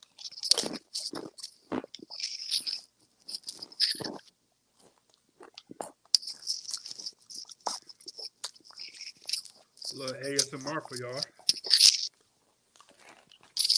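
Loud, crisp crunching and chewing of a seaweed snack made in China, with many irregular bites and munches in quick bursts separated by short pauses.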